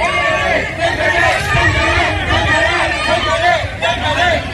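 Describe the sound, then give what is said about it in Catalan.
Crowd of fans at Barcelona's training ground welcoming Ousmane Dembélé: a dense, steady hubbub of many voices chattering and calling at once, holding at a loud, even level throughout. “Doncs la gent donant-li la benvinguda com si fos el fitxatge estrella de l'estiu.”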